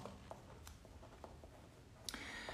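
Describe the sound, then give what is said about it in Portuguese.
Pen strokes on paper as someone writes out a set of instructions by hand, a few faint, brief scratches spread out and ending in a slightly firmer mark near the end. “Vou, vou escrever aqui o manual para você. Pera aí que eu vou escrever o manual.”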